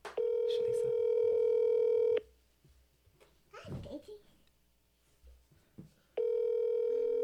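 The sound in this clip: Telephone dial tone while placing a call: a steady, unbroken electronic tone lasting about two seconds, then a pause filled with soft chatter and a child's babble, then the same steady tone returning.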